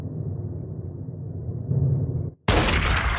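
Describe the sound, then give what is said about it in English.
A single sniper rifle shot in the video game Free Fire bursts in suddenly near the end, a loud, bright blast that stays sustained after a steady low rumble and a brief near-silent gap. “Chance to use my free fire sniping skills. Let's see if I can get a headshot.”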